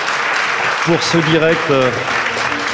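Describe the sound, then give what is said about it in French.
An audience claps in a steady, dense wash of applause while a voice speaks over it throughout. “Bon, je crois qu'on peut les applaudir.”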